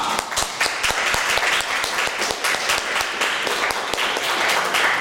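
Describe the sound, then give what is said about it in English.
Dense audience applause welcoming a comedian to the stage at a Melbourne comedy show: a loud, continuous wash of many hands clapping evenly throughout, with no voices over it. “And put your hands together.”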